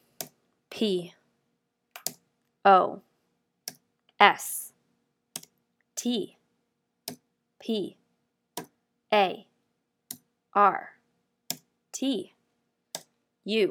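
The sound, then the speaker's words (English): A laptop keyboard is typed on slowly, with over a dozen separate keystrokes tapped out at a halting, uneven pace. A voice speaks short single syllables in between the taps. “I opened up my laptop and threw the uncontrollable tears streaming down my face, the headache, and the sense of defeat. I began to type into the search bar.”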